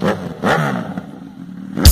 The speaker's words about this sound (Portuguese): Chegou lá na avenida, deu uma acelerada.